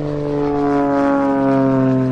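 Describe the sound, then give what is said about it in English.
Droning engine of a small gasoline-powered airplane taking off, a steady, loud propeller hum with strong layered harmonics that holds constant throughout, with no voices. “This is the sound of a small gasoline-powered airplane taking off.”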